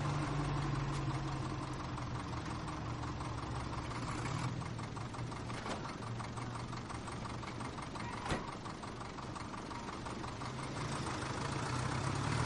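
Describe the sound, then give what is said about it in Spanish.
A truck engine runs in a World War II setting. The low idling rumble stays steady throughout, with a few sharp clicks and knocks standing out above it. “Su camión se pone en marcha”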